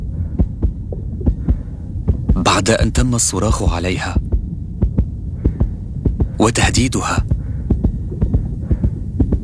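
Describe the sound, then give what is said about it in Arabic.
Heartbeat of a nurse after being shouted at, threatened and grabbed: many steady, fast, deep thumps over a low throbbing hum, running under a voice speaking for much of the time. “هذا صوت معدل ضربات قلب ممرضة”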